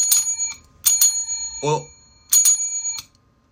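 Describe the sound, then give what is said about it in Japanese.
A bright, bicycle-style bell sound effect rings in quick pairs of strikes, clear and ringing against silence, with a short spoken word between the rings. “お、ベル、ベル、2個ね。うん、ベルが2個で、お、ね。”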